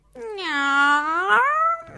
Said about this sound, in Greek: Μετά είδε τη γάτα. «Γάτα, μήπως είδες το ξωτικό?»